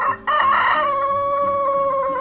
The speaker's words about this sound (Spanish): un gallo asado al que le dio por cantar antes de que su señoría se lo comiera